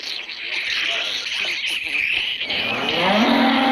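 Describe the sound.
A cow moos with someone's arm inside it, a loud, drawn-out lowing call that holds steady and swells toward the end.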